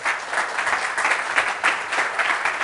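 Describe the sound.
Applause from an audience at a developer talk as a guest is welcomed on stage: dense, steady clapping fills the whole clip at an even level.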